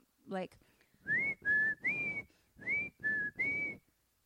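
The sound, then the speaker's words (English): A person whistles a short nursery rhyme tune, imitating an eerie whistle heard in a creepy empty house at night: six clear, held notes in two groups of three, fairly soft. “And we start hearing like a nursery rhyme whistle,”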